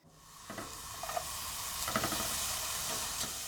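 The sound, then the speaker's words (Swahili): Onion fries in butter in a pan over low heat, giving a soft, steady sizzle. A few light stirring clicks and scrapes rise briefly above the hiss. “Weka siagi kwenye sufuria na ukaange kitunguu kwa kutumia moto wa chini.”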